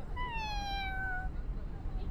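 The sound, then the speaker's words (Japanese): A single cat meow, drawn out for about a second with a slightly falling pitch, over a low background rumble. “あ、危ない！猫さん！よかった。”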